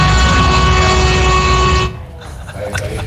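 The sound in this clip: A sustained horn-like blast holds one steady, harmonically rich tone for about two seconds, then cuts off abruptly and leaves near-quiet behind it.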